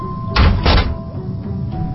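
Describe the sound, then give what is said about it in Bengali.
Two heavy, dull thuds strike a door in quick succession, loud and booming, then a quieter steady background remains. “অদ্ভুত তো, কেউ নেই, তাহলে দরজায় শব্দ করলো কে?”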